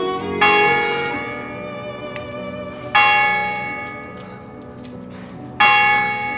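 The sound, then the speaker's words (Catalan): A church bell in a tower, rung by pulling its rope: three loud, resonant strokes a few seconds apart, each ringing out richly and slowly fading before the next. “en Jaume es treu l'abric, aferra ben amunt la corda de la campana i es tira cap avall.”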